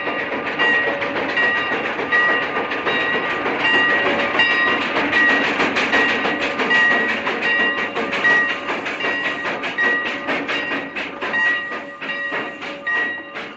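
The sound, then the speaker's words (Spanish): A train arriving at a railway station in a 1962 Western: steady loud rumbling with rhythmic clickety-clack of wheels on rails, overlaid by sustained high metallic tones, with no voices. “El tren se detiene.”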